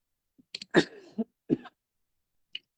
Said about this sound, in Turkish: Öksürük bizi bırakmayacak.